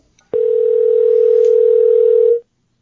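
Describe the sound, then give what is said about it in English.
A telephone dial tone: a single loud, steady low hum that starts abruptly, holds unchanged for about two seconds, then cuts off, with no voices over it. “let's dial into Norm and see what he's got for us”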